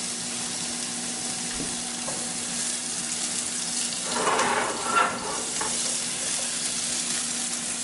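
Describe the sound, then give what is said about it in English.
Food sautéing in a pan while a spatula stirs it, a steady crackling sizzle with a few brief scraping and stirring bursts near the middle, no talk. “Just mix that a little bit around, and then we don't want to cook it up to the point where it's going to be all caramelized. We just kind of want to saute it.”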